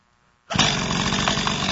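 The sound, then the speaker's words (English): A chainsaw bursts into sound after a moment of silence, then runs loud and steady with a harsh, buzzing roar. “Does everybody know what this is here? It's a chainsaw.”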